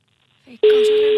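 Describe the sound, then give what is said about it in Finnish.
A telephone ringback tone sounds while a caller waits for an answer: a steady, loud single-pitch tone starts abruptly after a brief vocal sound and holds unbroken to the end. “Nyt vaan toivotaan, että joku vastaa siihen.”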